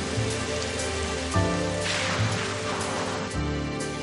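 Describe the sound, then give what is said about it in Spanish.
Rain falls steadily in a dense, continuous hiss of drops hitting surfaces, fairly loud and unbroken throughout, with no talk. “Luli espera a Miguel bajo la lluvia.”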